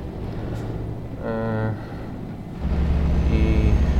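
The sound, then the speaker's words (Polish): A truck pulling a trailer drives along the Kraków–Katowice motorway in a driving video game. Its engine drones steadily with a low rumble that grows louder and heavier partway through. “Tak, więc jadę do autostrady Kraków-Katowice, najdroższej autostrady w Polsce.”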